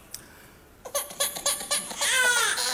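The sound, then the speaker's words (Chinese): A baby crying, starting with a run of short, sharp whimpering bursts that build into a sustained, high, wavering wail. “哎，这咋还哭？咋的？哭了？”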